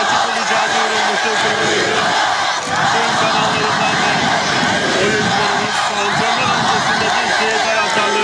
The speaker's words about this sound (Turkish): Günün erken saatlerinden itibaren tesisimizin çevresinde toplanan taraftarlarımız antrenmanın başlamasıyla meşaleler eşliğinde takımımıza tezahüratlarda bulundu.